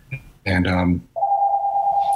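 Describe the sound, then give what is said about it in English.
A telephone rings in the background, a steady electronic tone that holds for about a second after a short burst of speech. “And I apologize for the phone in the background.”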